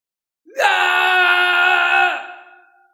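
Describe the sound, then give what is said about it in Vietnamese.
A man screams in agony inside a golden palace hall: one long, loud, harmonic cry that holds steady for about two seconds, then fades away, with no other sound. “Trong Hoàng Kim Điện, tiếng gào thét của Thạch Thạo rất là lớn, chịu đựng thống khổ lớn lao.”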